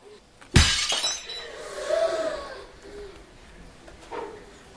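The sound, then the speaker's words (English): A ceramic plate is smashed over someone's head, a single loud, sudden crash with a bright shattering burst that quickly decays into fainter rattling and low sounds. “She's got the plate! She's going to smash it on his head!”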